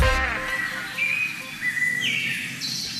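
Birdsong of clear, thin whistles and chirps, some sliding in pitch, heard over a steady hiss of background noise.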